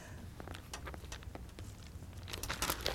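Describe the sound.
Thin Bible pages rustle and swish as someone flips through them, a steady run of crisp papery flutters and soft crinkles that grows brighter and busier toward the end, with no voices.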